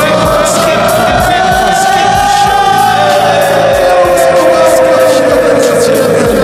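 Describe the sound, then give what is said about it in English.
A studio audience cheers and yells wildly in a loud, continuous roar, with a sustained whistling tone running over the noise throughout. “Oh, this audience is going absolutely buck wild.”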